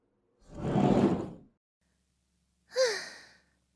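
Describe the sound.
A door or window slides shut against the cold, a soft, breathy whoosh lasting about a second, then after a pause a shorter, brighter sound. The whole clip is faint, and no one speaks.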